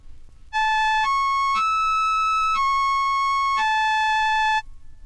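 Five sustained synthesized electronic notes rich in overtones, each a bright buzzy tone that steps up in pitch and then back down, played alone.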